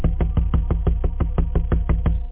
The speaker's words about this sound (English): as soon as I stopped thinking about that creepy guy, there was another knock at the door.